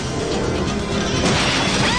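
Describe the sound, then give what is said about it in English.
A car smashes through a fence while fleeing police cars through a shanty town: a dense, continuous roar of crashing, crunching noise that stays loud and churning throughout, with no separate impacts standing out. “She smashes through a fence.”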